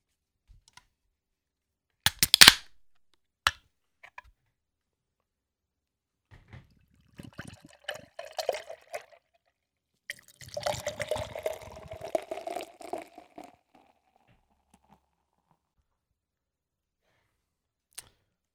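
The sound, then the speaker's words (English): A peach and cream milkshake double IPA is cracked open with one sharp snap, then after a pause poured out in a fizzy, splashing stream lasting several seconds, with a few faint clicks scattered between. “This is a peach and cream milkshake double IPA. Barrel Brothers, Craft Beer Kings. We're doing it live. Let's crack this motherfucker open.”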